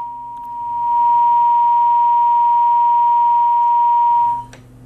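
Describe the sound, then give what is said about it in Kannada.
A steady, single-pitched telephone tone sounds after a call is cut off. It holds unbroken and loud for about four seconds, then stops abruptly. “ಕರೆ ಬಹುಶಃ ಕಟ್ಟಾಗಿದೆ ಅಂತ ಕಾಣಿಸುತ್ತೆ.”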